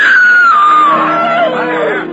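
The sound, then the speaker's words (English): A woman screams at a country fair after dark: one long, loud, sustained cry whose pitch slides steadily downward and fades slightly at the end. “Suddenly, a woman screams.”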